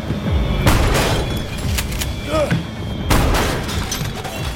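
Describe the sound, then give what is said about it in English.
Shotgun fire during a violent fight: a few heavy, booming blasts with rumbling tails, standing out from continuous noisy action. “Ludlow ducks behind a fridge as Coates fires a shotgun.”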